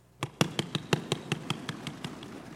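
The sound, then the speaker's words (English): A Bible is thumped in a quick, steady run of about a dozen dull taps that grow slightly softer toward the end. “Do you hear that sound? All right. Try it again, but now listen carefully to the sound.”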